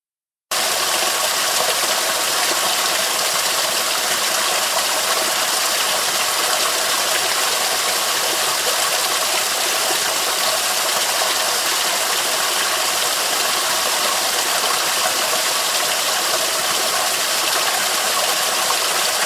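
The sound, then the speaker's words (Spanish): A waterfall roars as a dense, steady rush of water noise that stays loud and unchanging from start to finish, with no voices. “A continuación, escucharemos lo que la cascada nos dijo.”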